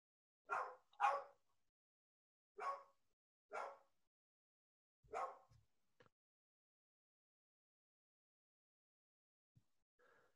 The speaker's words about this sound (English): if you can hear that, that's our dog barking